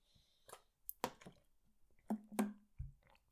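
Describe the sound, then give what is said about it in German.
Someone takes a sip of a drink: a few sharp clicks and knocks of handling, soft slurping, and a dull low thud near the end, with no talk. “Ich trinke nochmal einen Schluck”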